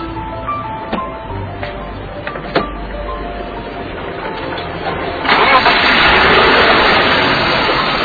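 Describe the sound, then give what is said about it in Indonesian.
A well-maintained car engine starts up. A few sharp clicks come first, then the engine catches and settles into a loud, steady running drone. “Kalau mesin tiap hari saya rawat, Bos. Bener, Bos? Bagus kan, suaranya bersih kan, Bos?”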